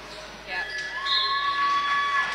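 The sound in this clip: A basketball is dribbled during a women's basketball game, a few bounces on the court set against a steady background of arena noise.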